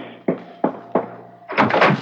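Knocking on a house's front door: three firm, evenly spaced thuds, then a longer, louder burst of sound at the end.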